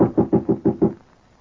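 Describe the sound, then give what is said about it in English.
Knocking on the office door of a typewriting service: a quick, evenly spaced run of about six firm, dull knocks, then silence. “Shall I knock? Yes, son.”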